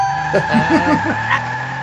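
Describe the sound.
An Akira-style motorcycle slide sound effect: a steady, screeching skid tone with a wavering squeal on top, held at even loudness for under two seconds.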